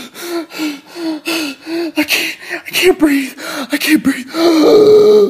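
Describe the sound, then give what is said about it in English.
A voice imitating hard, panicked breathing, as if faking a panic attack in a kitchen: many rapid, loud, voiced gasps in a steady rhythm, ending in a longer, strained, sustained breath sound. “I was in the kitchen and my mom was like around the corner and I started breathing really hard. I was like,”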